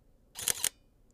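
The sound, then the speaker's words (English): Camera powering on: a short, quiet mechanical whir-click made of two quick bright bursts in succession, alone against near silence. “sometimes maybe it's just turning on your camera and you get this beautiful sound.”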